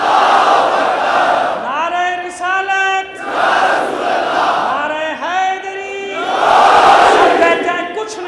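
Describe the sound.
A crowd shouts religious slogans in unison in response to a leader's call. Loud, sustained chanted phrases swell and fade in repeated waves of many voices.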